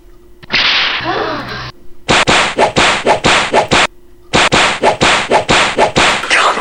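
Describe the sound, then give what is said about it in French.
Whip-crack sound effects: a short swishing sweep, then two rapid volleys of many loud, sharp snapping cracks in a fast, regular rhythm, separated by a brief gap. “pourquoi est-ce qu'on tape un bruit de fouet, ça fait des trucs comme ça?”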